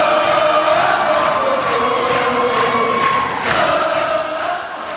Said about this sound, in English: That was the sound of jubilation inside the West Virginia State Capitol as teachers discovered that they had indeed won a 5% pay raise after a historic 9-day strike in West Virginia